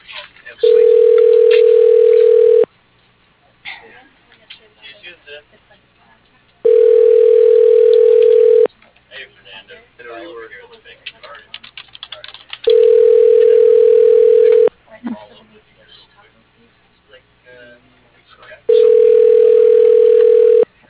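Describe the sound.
Telephone ringback tone as a call is transferred to voicemail: four long, steady, even rings of about two seconds each, spaced by quieter gaps with faint background sound.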